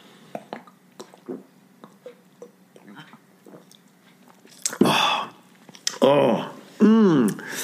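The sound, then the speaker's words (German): A small bottle of lemonade is opened and drunk from: a few faint clicks and taps, then a short fizzing hiss and louder wet gulping sounds, with a brief voice near the end. “Und die nette Inhaberin hat mir 6 kleine Flaschen für zu Hause verkauft. Herrlich. Und eine davon habe ich jetzt in der Hand und öffne sie. Moment. So, muss ich kurz trinken.”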